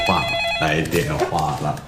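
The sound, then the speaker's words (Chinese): A telephone rings for an incoming call, its high electronic tone sounding at the start and then carrying on faintly beneath voices talking over it. “来电话了。 谁的电话？”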